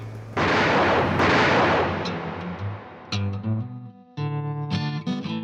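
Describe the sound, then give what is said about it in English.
A gunshot in an audio drama fires as a loud blast whose roar decays over about two seconds, followed by tonal musical stabs and hits. “Arthur! She's got a gun!”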